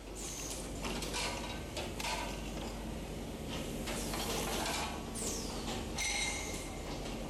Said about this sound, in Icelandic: og hér er verið þá að blása hana út